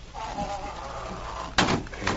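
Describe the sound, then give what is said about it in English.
A door is eased shut at night, a faint drawn-out creak followed by one firm thud and a softer knock after it. “Oh, floors always seem to squeak at night. There now. Close the door.”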